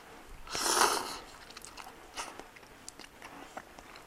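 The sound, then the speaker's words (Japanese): Slurping and chewing of cup ramen made with misshapen tomatoes in a basil-tomato style. A loud, breathy slurp is followed by a few soft, irregular chewing clicks. “ちなみにこれは不揃いトマトを使ったカップラーメンなんだけどううまいなこれ”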